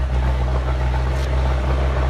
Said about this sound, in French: c'est dans un camion militaire de l'époque soviétique que l'on se ferait un chemin sur des routes défoncées.